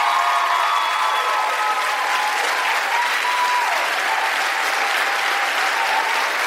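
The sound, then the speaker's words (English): Loud, sustained audience applause at a town hall, cheering on public school teachers. It is a dense, even roar of clapping that holds steady from start to finish. “Can we just hear it for our public school teachers?”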